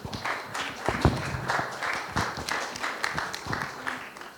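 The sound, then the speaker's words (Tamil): An audience claps to welcome a pastor onto the stage at a church service, many hands making a steady, fairly dense patter of sharp claps at moderate loudness. “இப்போ நம்ம கரங்களை தட்டி let's welcome pastor on stage.”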